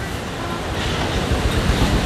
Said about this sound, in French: Mais vraiment, c'est une mer un peu déchaînée, quoi.